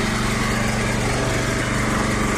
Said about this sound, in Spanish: Pues, pues mira, de momento un generador que está haciendo muchísimo ruido.